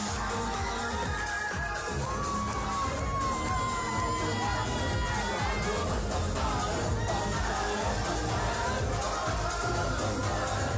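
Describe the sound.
Large concert audience cheering, a dense, continuous roar of shouts, whoops and crowd noise that stays loud and steady throughout.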